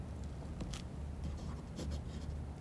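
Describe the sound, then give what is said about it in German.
A pen writes on the blank pages of a notebook with quiet, irregular scratching strokes and small taps, faint and alone. “Dann fing ich an zu schreiben.”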